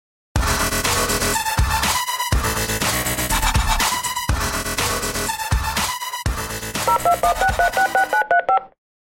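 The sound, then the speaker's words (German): Touch-tone telephone keypad beeps as a number is dialed: a long series of loud, steady tones in quick groups, ending in a faster run of short beeps, with no talking. “Ja, dann lass uns mal anrufen und dann reden wir mit Kuba.”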